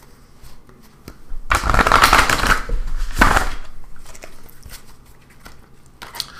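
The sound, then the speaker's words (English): A deck of cards is riffle-shuffled in two quick bursts, a longer one then a shorter one, with soft handling rustles before and after. “Give it another shuffle.”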